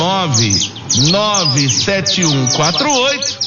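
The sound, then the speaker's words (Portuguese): A small bird sings a loud, continuous run of varied warbling whistles, its notes sweeping up and down in quick arcs with short breaks between phrases. “E eu quero saber que passarinho é esse que está cantando aí, ó. Que passarinho é esse?”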